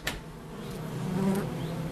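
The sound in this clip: A honeybee colony with a quacking queen gives off a dense, steady buzzing hum. A short, low tonal note rises out of the drone about midway through.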